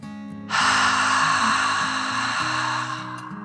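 A deep dragon breath: one long, steady breathy rush that starts abruptly and holds for about two and a half seconds before easing off, over soft, low sustained music.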